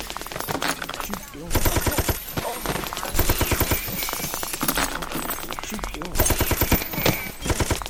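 Rapid machine-gun fire in a video game comes in several loud bursts of evenly spaced shots, set against a busy, dense mix of other game sounds.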